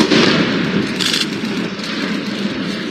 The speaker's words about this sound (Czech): To ještě 20-tisícitunová skipová věž stála. Potom ale stačila chvilka a 141 kilogramů trhaviny.